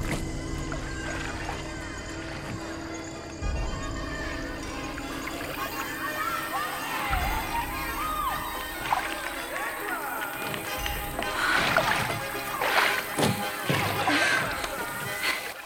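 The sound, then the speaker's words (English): Oars row a small boat through water past a drooping tree after rain, with repeated sloshing and splashing strokes that grow busier toward the end, set within a dense, continuous background. “She looks relieved and rows faster.”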